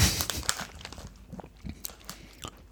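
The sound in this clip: Crunching bites and chewing on a whole-grain spelt cracker, many quiet, sharp crackly crunches in an irregular rhythm that are loudest at the start and thin out into softer chewing.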